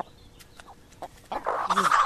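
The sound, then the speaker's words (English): Backyard chickens clucking near Los Angeles: faint scattered clucks and small clicks at first, then louder, fuller clucking over the second half. “And then they calm down into a calm, happy cluck.”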